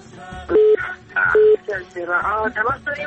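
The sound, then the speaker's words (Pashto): Two short, steady electronic telephone tones signal an incoming call on a radio call-in show. Each tone is level in pitch and lasts about a fifth of a second, with people talking around them. “آه تماس داریم.”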